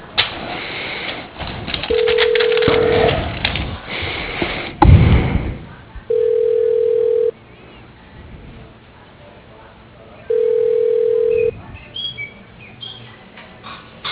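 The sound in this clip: Telephone tones sound as a call is transferred: three identical steady beeps, each lasting about a second and evenly spaced several seconds apart, over faint line noise.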